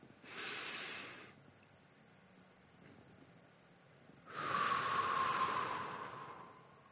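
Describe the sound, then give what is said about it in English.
Deep breathing exercise: a soft, airy inhale through the nose, a quiet held pause, then a longer, louder, hissing exhale. “we're going to inhale through our nose for a count of four. We're going to hold it for a count of seven, and then we're going to exhale a count of eight.”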